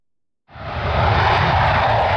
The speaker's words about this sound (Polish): Przez kilkadziesiąt minut na polskim niebie widoczne były najnowocześniejsze myśliwce F-35.